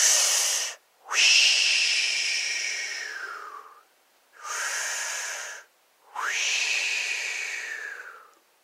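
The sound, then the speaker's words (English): Slow breathing in and out during a relaxation exercise: four long, airy breaths with a faint wheezy hiss, separated by short silences, the longer ones fading gradually as they end. “So let's breathe in and out a couple times.”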